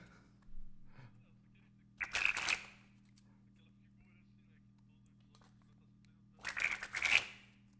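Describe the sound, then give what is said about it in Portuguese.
Playing cards are shuffled for a magic trick in two crisp, crackling riffle bursts separated by a quiet pause, over a low, steady hum. “Tô embaralhando cartas. Tô fazendo uma mágica.”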